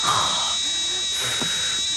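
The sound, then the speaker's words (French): A shrill, steady electronic alarm tone from a smoke detector set off by burnt bacon in a kitchen, holding one unbroken high pitch for the whole two seconds with only faint low rustling beneath. “Ouais, c'est une espèce de détecteur de fumée parce qu'elle a raté le bacon.”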